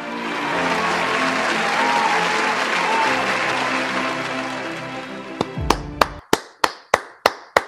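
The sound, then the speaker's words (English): Audience applause welcomes the CEO of Spirit Media on stage at a corporate celebration event, a steady dense clapping that then breaks off into several sharp, booming, decaying hits in a regular rhythm. “Now, put your hands together and let's welcome the CEO of Spirit Media, Kevin White.”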